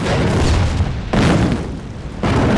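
An explosive blast set off in a mine in gold rush country during a prospecting dig: a loud, deep, broad roaring boom that surges again a couple of times, with no voices.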